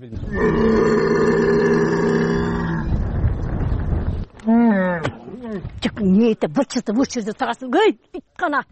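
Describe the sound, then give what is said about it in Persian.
A hungry camel moans during a drought with no grazing, giving a long, steady, low harmonic groan for about three seconds. A man then talks. “این شتر از گرسنگی مینالد و التجا میکند که خوراک دهم، ولی از کجا گیرم؟”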